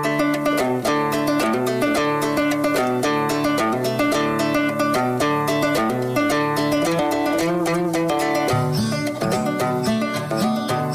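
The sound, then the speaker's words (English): A song's instrumental plays with a steady rhythmic beat, a bass line and repeating melodic notes. No singing is heard, and the music stops before the vocals come in. “what we're going to do is play the instrumental of a song up until where the vocal is about to come in, and then we're going to cut it.”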